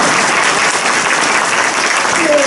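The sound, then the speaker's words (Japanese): A seminar audience breaks into applause during a speaker's presentation, a loud, steady stream of many hands clapping together without pause. “ここ拍手じゃない”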